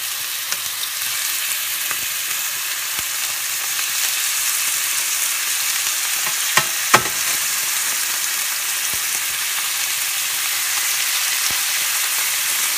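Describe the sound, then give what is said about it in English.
Meat searing in a hot pan gives a continuous, bright, crackling sizzle that holds steady throughout, broken by a couple of brief faint clicks, with no talking. “this is what I like to hear, the sear, because this is going to help lock all the juices in there and make it really nice and tender.”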